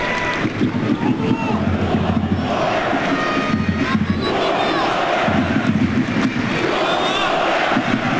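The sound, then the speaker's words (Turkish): A stadium crowd at a football match involving Austria applauds a player, a loud, continuous roar of clapping and cheering that holds steady throughout, with a voice talking over it. “Alkışı da oluyor.”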